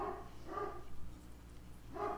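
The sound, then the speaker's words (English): Dogs barking faintly, a few short, separate barks spaced out with quiet gaps between them. “I apologize for my dogs barking.”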